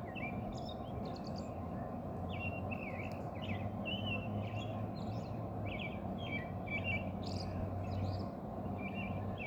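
Birds chirp outdoors in the early morning, many short, high calls scattered throughout. They are faint and sit over a constant low background rumble, with no talk.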